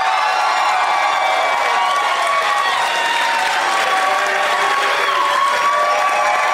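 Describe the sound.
Studio audience applause and cheering greeting the guests on a game show. Dense, loud clapping runs without a break for the whole stretch, with whoops and shouts rising over it.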